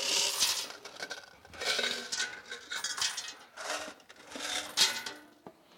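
Coins dropped one at a time into a container give bursts of bright metallic clinks and jingles, repeating in clusters with short gaps between them.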